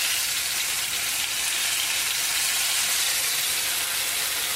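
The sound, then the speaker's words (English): Food sizzling in a frying pan just after being flipped: a steady, even hiss of frying that stays at one loudness throughout, with no voices. “This shouldn't splatter too much, but if it's splattering a little bit, you can definitely use a little splatter shield”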